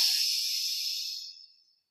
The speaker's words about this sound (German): verschließe das linke Nasenloch und atme rechts ein.